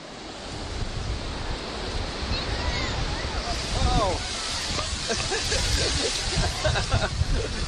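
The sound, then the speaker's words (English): Surf rolling onto Sydney's Bondi Beach on a busy weekend: a steady, dense wash of breaking waves with no clear gaps, and faint, indistinct voices mixed into the roar. “That's the sound of Sydney's Bondi Beach on an average weekend.”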